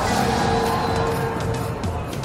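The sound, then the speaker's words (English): Formula One race cars on the Las Vegas street circuit give a dense, steady engine roar. It stays loud throughout with no clear gaps. “It's the most spectacular race of the season. F1 cars on the streets of Las Vegas.”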